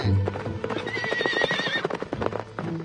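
Horses whinny and hooves clip-clop in a video game as riders mount up after a hunt. A long, wavering neigh rises over a steady clatter of hoofbeats that runs throughout.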